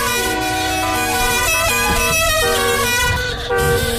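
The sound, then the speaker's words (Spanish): A truck horn blares as the truck approaches. It is a loud, sustained honk of layered, shifting tones over rumbling road noise, and it fills the whole clip. “¡Viene un camión!”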